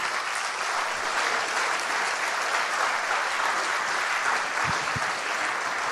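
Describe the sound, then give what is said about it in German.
Warm audience applause welcoming a guest preacher at an evening church gathering: continuous, loud, even clapping that holds steady throughout, with no voices heard. “begrüßt ihn bitte mit einem warmen Andreasapplaus”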